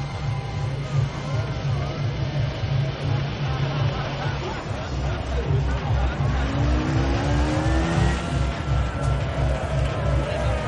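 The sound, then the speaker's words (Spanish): A car engine hums steadily as the car edges through a crowd of young people outside a nightclub and comes to a stop. Voices mix in with the constant drone. “Jaime se abre paso entre ellos con el coche y lo detiene.”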